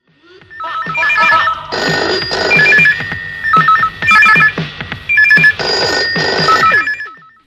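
A telephone rings for a live phone-in call: a loud electronic trilling ringtone sounding in short repeated bursts, mostly in pairs, separated by brief gaps, with no talk over it.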